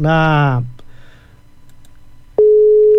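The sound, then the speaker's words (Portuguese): A busy signal follows a dropped phone call during an interview. A voice is heard briefly, then comes a quiet gap, and a steady, continuous mid-pitched tone sets in and holds. “perdemos aqui o contato com o Henrique Pivato, caiu a ligação”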